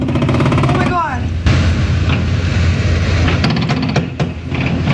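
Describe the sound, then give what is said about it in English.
Gunfire from handguns fitted with trigger switches, fired by teenagers in the street, comes as a few rapid bursts of sharp cracks. It sits within noisy background sound, with voices present. “And listen to the kind of weapons these teenagers are firing at each other.”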